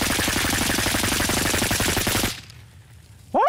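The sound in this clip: A semi-automatic rifle fires rapidly through a do-it-yourself hand-crank trigger device, like a small Gatling gun, in a loud continuous burst of shots lasting about two seconds before abruptly stopping.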